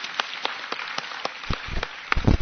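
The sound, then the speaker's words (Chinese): A church audience gives applause in worship, a steady run of sharp, evenly spaced claps, with a few heavier, duller thumps joining toward the end. “快俾热烈掌声我哋嘅神！”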